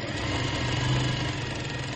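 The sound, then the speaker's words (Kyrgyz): A sewing machine stitches the inner lining of a hat, giving a steady, continuous mechanical motor hum with a low drone and no clear breaks, alone and without talk. “Азыр шапканы ичкит материалын тигип атабыз, чтоб кирдебеш үчүн.”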